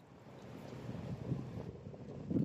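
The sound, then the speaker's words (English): Wind blowing outdoors during a walk with a dog, buffeting the microphone as a faint, continuous low rumble with rustling hiss that swells slightly near the end. “She's being pushed by the wind.”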